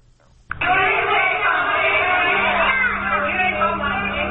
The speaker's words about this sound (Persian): این صدای اعتراض ده ها زن و کودک پناهجوی افغان است